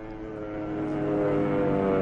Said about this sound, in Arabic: أربع طيارات للعدو متجهة للشر. ياه، دي عالية قوي.